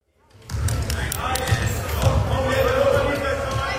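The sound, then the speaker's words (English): A wheelchair basketball gold medal game at the BC Winter Games between Team Fraser Valley and Team Vancouver Island Central Coast: ball bounces thud within a steady, loud wash of crowd noise that starts abruptly after a brief silence. “This is the sound of a basketball game. It's the gold medal game at last year's BC Winter Games between Team Fraser Valley and Team Vancouver Island Central Coast”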